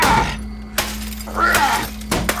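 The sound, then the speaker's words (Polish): A thick tempered glass window of a railway wagon is smashed, with a bright shattering crash followed by further sharp impacts and crackling, tinkling fragments. “Wagon nie dawał się otworzyć łomami, ale miał okno. Może da się rozbić szybę. To hartowane, grube szkło, ale bijcie. Może się rozsypie.”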